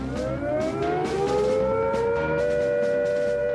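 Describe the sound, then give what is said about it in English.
A civil defense siren warning of nuclear attack gives a loud, continuous wail. Its tone holds steady and rises slightly in pitch across the whole stretch, and no other sounds are heard. “If we are attacked by nuclear weapons, these are the warning sounds you must recognize.”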